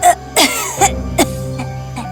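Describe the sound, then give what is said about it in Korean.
An elderly woman who is parched and weak coughs hard in a series of rough, hoarse coughs and throat-clearing bursts. They come in an uneven rhythm, loud and without any talk. “할머니가 기침을 너무 심하게 하시는 걸 본 엘라는 너무 무서웠지만”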